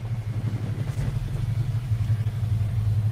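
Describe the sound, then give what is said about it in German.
Motorcycles ridden through the area give a steady, low, throbbing engine drone that holds fairly level throughout, with no clear pass-by peak. “Die fahren hier einfach durch mit ihren Motorrädern, ja?”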